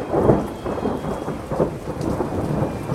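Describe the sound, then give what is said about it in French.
A thunderstorm breaks over an outdoor music festival: a torrential downpour hisses steadily while low thunder rumbles swell and recede a few times beneath it. “Lorsqu'il quitte la scène, l'orage éclate. Une pluie diluvienne, pire que toutes celles qui ont précédé, s'abat sur les festivaliers.”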